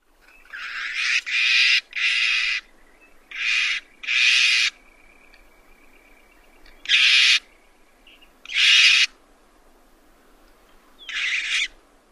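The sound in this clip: Harsh, raspy snarl calls of a snow bunting in winter: several short, buzzy bursts spaced irregularly, some in quick pairs and others after longer quiet gaps.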